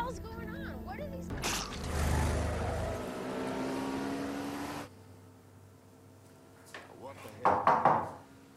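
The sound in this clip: Knocking on a door in a television drama scene: a few sharp raps near the end follow a long stretch of steady, engine-like rumble and noise.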